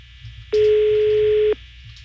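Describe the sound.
Telephone ringback on an outgoing call: a single steady ring tone lasting about one second, loud and clear over faint line hiss.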